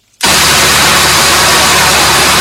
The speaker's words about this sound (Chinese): 在安徽宣城郎溪县建平镇的再生稻田里，收割机开足马力穿梭，切割、脱粒、装车一气呵成。